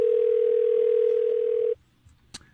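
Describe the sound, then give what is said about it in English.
A steady telephone dial tone hums loud and unbroken, then cuts off abruptly partway through, leaving near silence with a faint brief click afterward. “Are you dialing correctly? Are you pushing the numbers hard?”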